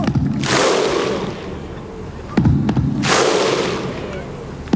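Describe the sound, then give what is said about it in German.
Iceland football fans at Euro 2016 in France chant as a huge crowd. Two loud massed roaring shouts swell and fade, with sharp percussive hits between them. “Das sind die Isländer. Und zwar bei der Fußball-Europameisterschaft 2016 in Frankreich. Die haben eine Stimmung gemacht. Das hat sich so aufgebaut.”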